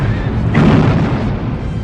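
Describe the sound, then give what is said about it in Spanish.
Cannon fire in a dramatized Battle of Waterloo: one heavy booming blast erupts out of a constant roaring battle din and then slowly fades back into it. “Los cañones cobran sus primeras presas. Filas enteras de coraceros franceses empiezan a caer al suelo.”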